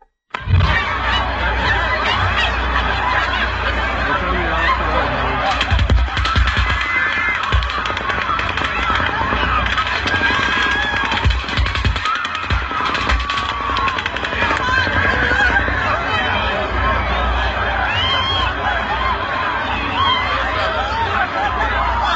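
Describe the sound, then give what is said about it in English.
Multiple weapons fire simultaneously in a dense, unbroken barrage of overlapping cracks and rapid bursts that stays loud and continuous from start to finish. “Tell me how many different weapons you hear firing simultaneously here.”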